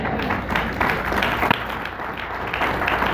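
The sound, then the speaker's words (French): An audience in church breaks into dense, continuous applause, many hands clapping at a lively, fairly loud level for about three seconds, with a few sharper claps standing out. “Quelqu'un acclame le Seigneur.”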